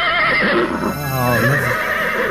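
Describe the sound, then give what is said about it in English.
A horse gives a loud, shaky whinny that rises and then quivers down in pitch. It fills the short clip on its own, with no talk over it. “That is the horse. The horse knows everything. Are you feeling well today, horse?”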